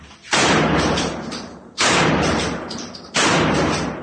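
Gunshots ring out: three loud, sharp booms spaced more than a second apart, each followed by a long rumbling decay, with no talking over them.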